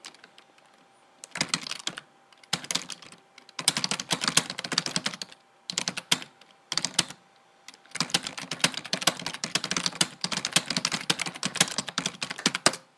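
Computer keyboard typing as a sentence is entered in Microsoft Word, heard in several bursts of rapid, crisp key clicks separated by short pauses. The final stretch is the longest and densest run, and no one speaks.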